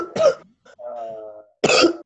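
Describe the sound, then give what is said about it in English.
Two harsh coughs from a participant on a video call, each a short rough burst, separated by a brief voiced hum. “mute yourself, especially if you're coughing. Are you okay?”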